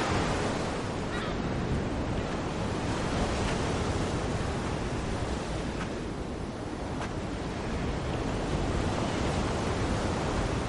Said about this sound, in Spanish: camina por la orilla del mar.